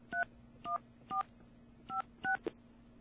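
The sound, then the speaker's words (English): A telephone keypad sounds dual-tone dialing beeps while a 1-844 number is dialed: a few short, clean tones in an uneven rhythm, fairly soft, ending with a brief clipped blip. “Now I'm going to dial 1-844. And, I don't know, a bunch of numbers.”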